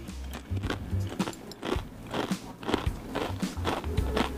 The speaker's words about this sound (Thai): งั้นขอกินขนมดอกจอกกรอบเลย